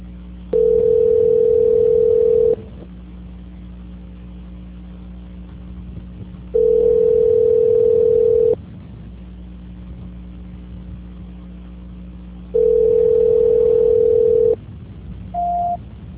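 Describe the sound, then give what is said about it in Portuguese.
Telephone ringback tone on a line while a call is being transferred: three long, steady, mid-pitched tones of about two seconds each, separated by roughly four-second gaps, then a short, higher beep at the end. “Só um minuto, por favor, enquanto eu vou transferir a sua ligação.”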